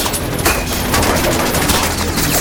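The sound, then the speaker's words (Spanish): Heavy gunfire comes from all sides during a firefight with suppression fire: a dense, loud barrage of overlapping shots runs without a break through the whole clip. “vienen esos disparos? De todos lados.”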